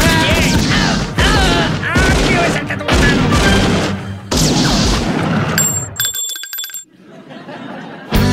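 Gunshots ring out in loud, rapid, dense bursts, a continuous barrage of sharp cracks and booms that stops abruptly near the end.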